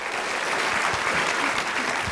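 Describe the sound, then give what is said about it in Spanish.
Applause from a church audience during a sermon: dense, continuous clapping that holds at an even level throughout, with no distinct voices. “Aplaudo al Rey de Reyes y Señor de Señores.”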